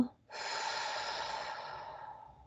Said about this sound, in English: we're going to just take that deep breath. I'm going to hold it at the top and then let that go.